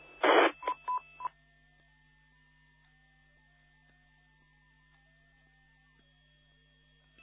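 A station trying to connect via EchoLink sends DTMF tones: four short touch-tone bursts in the first second, the first the loudest, followed by a faint steady hum with soft shifting tones.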